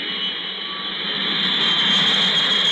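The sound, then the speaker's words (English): A steady jet engine roar from a plane landing in California, with a high whine over broad rushing noise that swells slightly toward the end. No voices are heard. “plane loads of America's returning Vietnam veterans have been landing in California and still are”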